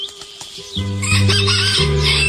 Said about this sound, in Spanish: Ya cantó el gallo